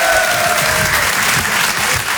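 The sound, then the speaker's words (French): Audience applause at a comedy and song stage show greets a performer, a loud, dense and steady wash of clapping that carries on without a break from start to finish. “Je vous demande un tonnerre d'applaudissements, s'il vous plaît, pour Kevin Razi”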